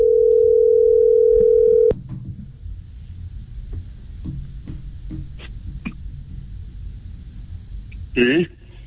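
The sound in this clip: Telephone dial tone: one steady, even, low-pitched hum that holds for about two seconds and then cuts off abruptly, leaving quiet hiss and a few faint clicks.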